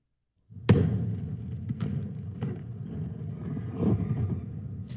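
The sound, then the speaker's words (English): Explosion of a Blue Origin New Glenn rocket during a launch pad test at Cape Canaveral: a sharp blast followed by a sustained low rumble, broken by a few further thuds. “And that is the sound of Blue Origin's New Glenn rocket exploding while it was being tested on the launch pad at Cape Canaveral.”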